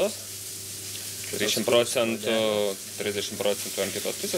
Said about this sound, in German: Ich brate den immer länger auf der Haut. Danach noch mal rund 6 Minuten auf der anderen Seite.